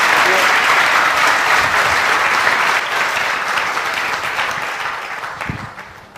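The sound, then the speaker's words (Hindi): Sustained applause from the audience at a devotional gathering: dense, even clapping that slowly fades toward the end. “हमारे सुमेध, तालियां इनके लिए”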